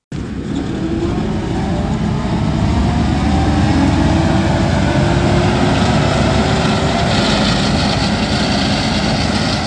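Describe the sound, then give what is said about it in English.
A walnut grower's multi-purpose mower, which blows walnuts, towed behind a small 80-horsepower tractor, starts abruptly into a loud, steady engine drone with a low rumble and a broad blowing roar; no voices. “James Chinchola, a walnut and cherry grower near Linden, cranking up his multi-purpose mower that's towed behind a small 80-horsepower tractor.”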